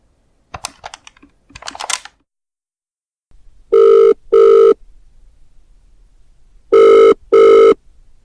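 A telephone rings in two loud double rings, four bursts of steady tone in two pairs separated by a pause. A brief patter of clicking keys comes before the rings.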